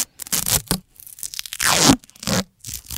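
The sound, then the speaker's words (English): Tape being torn off a roll to fix down a cranium: several short, rasping rips come in separate bursts with brief pauses between them, and one longer pull sits in the middle. “Give me some of that because as we're playing this, I'm going to need to tape down the cranium so it doesn't explode.”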